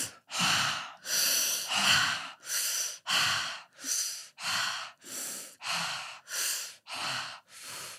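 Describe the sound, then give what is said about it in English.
Hoo-ha breathing exercise through the mouth, a long, steady rhythmic series of many forceful, airy breaths. Each is a loud whooshing burst with a short gap between, at an even pace, with no talking over them. “if you do it on your own, 30 hoo-ha breaths, we'll do it now.”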